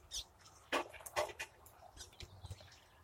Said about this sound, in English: Got the hummingbird coming into the feeder while I'm standing here.